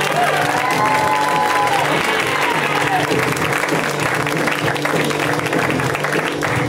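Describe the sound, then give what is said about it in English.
Audience applause and cheering welcome a comedian to the stage at a comedy show. Dense, steady clapping mixed with cheers fills the whole stretch without a break. “Please, warm welcome to the stage for my friend, Mr. Seth Herzog. Guys, give it up for Seth!”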